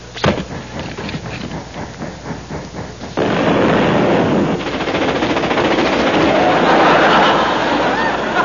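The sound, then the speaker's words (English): Strong coal explodes after being thrown on a fire. A sharp bang leads into a rapid, rattling run of crackles, then a sudden loud, roaring blast that holds steady for several seconds. “Special strong coal. Oh, good. I'll throw it on the fire.”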